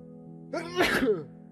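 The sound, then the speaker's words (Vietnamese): A man sitting on a stone embankment by the water gives one loud, forceful sneeze. It is a single sharp burst with a short intake before it, heard alone over a faint steady background. “thầy Lương lại hắt hơi một cái rõ mạnh”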